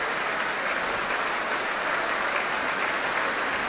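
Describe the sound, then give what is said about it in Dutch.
A concert audience applauds after a performance of Berlioz's Symphonie fantastique, cheering on the orchestra and its solo oboist with a dense, steady wash of clapping that stays level from start to finish. “wil graag laten weten dat ze hebben genoten. Groot applaus nu voor Alexei Ogrinchuk, de solo-hoboist.”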